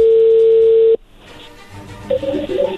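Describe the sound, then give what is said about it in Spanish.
Telephone tones as a call is placed: a loud, steady dial tone cuts off abruptly, followed by quieter line noise and a few short, higher tone bursts near the end. “primero vamos a ver qué sucede, vamos a llamar llamarle a Susi”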